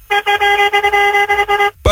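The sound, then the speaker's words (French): Car horn honking in a rapid string of short, loud blasts, a bright buzzy steady tone broken by brief gaps before stopping abruptly. “Salut, et faites péter le klaxon là pour voir là. Fais péter le klaxon.”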